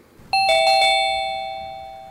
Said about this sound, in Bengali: এমন সময় ডোরবেলটা বেজে উঠল।